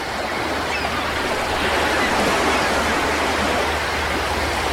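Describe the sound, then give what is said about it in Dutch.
Sea waves roll in a continuous rushing roar, fairly loud and even throughout, with no separate wave breaks standing out and no voices. “Luister even mee. Dit is het geluid van de zee.”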